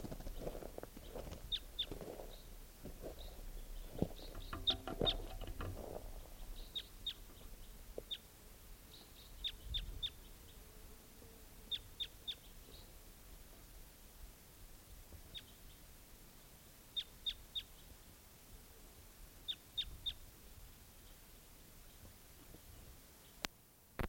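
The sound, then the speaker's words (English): Bird calls: many short, high chirps in small clusters, faint above a steady hiss of background noise, with some low rumbling early on. “Oh, bird.”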